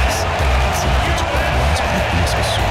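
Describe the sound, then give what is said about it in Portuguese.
Applause from the stands at SoFi Stadium in Los Angeles as athletes line up, a dense, steady roar of clapping and crowd noise that runs throughout, with a voice talking over it. “você ouve ao fundo, é aplausos, viu? O aplauso, são vários que vêm da arquibancada do SoFi Stadium em Los Angeles, nos Estados Unidos”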